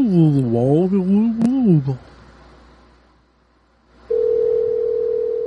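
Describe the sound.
A steady, unbroken telephone call tone sounds while calling a number back. It holds one low-mid pitch to the end, after a short stretch of talk and a quiet pause.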